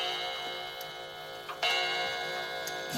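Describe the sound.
A clock ticking steadily while a child hides inside its case, faint and even, with a soft rhythmic tick and one slightly louder click partway through.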